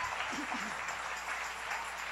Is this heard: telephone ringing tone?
no